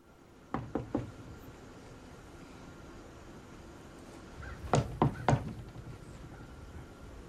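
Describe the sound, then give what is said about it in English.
Knocking on a house's back door off a porch: three hesitant raps, a long pause, then three louder raps, over a low steady hiss. “Hesitantly, she knocks.”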